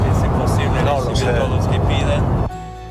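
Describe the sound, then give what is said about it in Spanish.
A steady, loud roar of airplane cabin background noise on board a flight runs under speech, then drops abruptly to a quieter hum near the end. “Con ciertas dificultades el sonido, porque era a bordo del avión, el ruido de fondo hacía difícil entender sus palabras”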